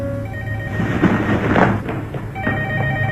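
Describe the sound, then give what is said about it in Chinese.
A telephone ringing in a home, steady electronic ring tones sounding over a noisy, rumbling background, with the ringing continuing across the whole stretch and no voices. “小雨以为是阿琴打来的电话，便跑了过去。”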